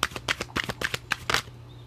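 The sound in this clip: Tarot cards being shuffled and drawn during a monthly zodiac reading: many quick, crisp papery riffles and snaps in an uneven rhythm, fairly faint, with no talking.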